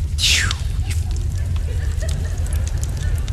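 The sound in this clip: A fake fireplace crackles with faint scattered pops and ticks over a steady low rumble, opening with a brief swooshing sweep.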